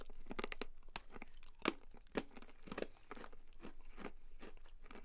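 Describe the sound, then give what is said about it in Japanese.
A La France pear flavoured snack's package tears open, then many crisp crunches and crinkles follow in an irregular run, all fairly faint. “せっかくなんでラフランス味をいこうかと思います、ね、はい、放送になってるので今開けますね。”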